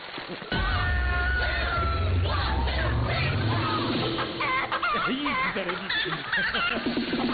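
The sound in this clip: A performer imitates chicken clucking during a chicken dance. A run of short, bobbing voiced clucks grows livelier in the second half over a steady bed of background noise.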